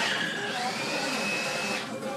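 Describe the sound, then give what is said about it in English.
A blender runs with a continuous whirring motor roar and a thin high whine riding on top, staying steady and fairly loud throughout. “the blender's going. That's going to be annoying, I think.”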